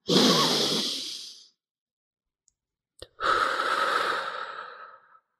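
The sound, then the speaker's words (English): A long, deep breath: a breathy inhale lasting over a second, a quiet hold of nearly two seconds, then a slow, sustained exhale that tapers off. “let's take a deep breath together now. And I have them do it with me, and I do a long one.”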